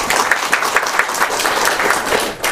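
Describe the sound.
Warm applause in a committee meeting welcoming a new delegate, a dense, steady patter of many hands clapping with no break.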